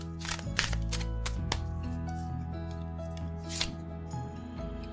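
Tarot cards being shuffled and pulled from the deck give a few crisp, rustling riffle bursts, fairly faint, over a soft continuous background, with no talking.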